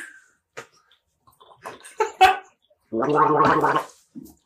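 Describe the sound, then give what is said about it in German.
People drink a refreshing beverage: scattered small sips and mouth sounds, then one longer, louder gurgling gulp, and a final short swallow. “Und wir trinken gerade einen erfrischenden kleinen Berliner Lüftchen, würde ich fast sagen.”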